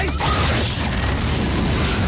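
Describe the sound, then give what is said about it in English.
A lipstick taser fires in a film sound effect: a dense, crackling electric buzz that stays loud and steady for about two seconds, with no talk. “You know, you really should announce your weapons after you fire them. For example, lipstick taser.”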